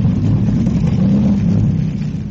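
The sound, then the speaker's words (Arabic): The engine of an 85-horsepower motor launch runs at speed, giving a loud, steady, low mechanical drone with a slight revving waver that continues unbroken throughout. “اللانش اللي راكبه يا فندم 85 حصان وسريع جدا. لازم نقبض عليه”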